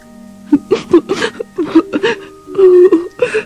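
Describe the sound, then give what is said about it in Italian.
A voice imitates sobbing for a plush toy kangaroo sitting on the floor beside a large grey rubbish bin: many short, hiccuping, whimpering gasps and wavering voiced sobs come in uneven bursts, with one longer drawn-out wail near the end. “Singhiozzava e la sua lucida pelliccia si scuoteva tutta.”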